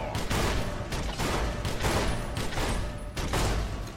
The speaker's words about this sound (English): Out of practice with this gun. I'm not finding the range.